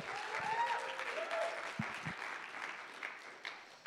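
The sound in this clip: An audience applauds to welcome a speaker about to talk on the genealogies in the Christmas story. The clapping is sustained and fairly even, with a few brief louder peaks.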